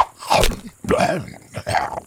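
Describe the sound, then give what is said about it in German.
An animal swallowing a colourful magic bone: three loud throaty gulping bursts with a crunching, growly, voiced quality. “Was war das jetzt? Ramses hat den Zauberknochen verschluckt.”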